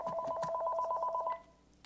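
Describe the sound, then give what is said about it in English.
A phone rings in a kitchen with a faint, rapid two-tone electronic trill that pulses evenly for over a second before stopping abruptly. “Oh, there's my phone. There's my phone.”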